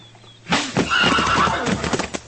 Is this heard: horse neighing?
yes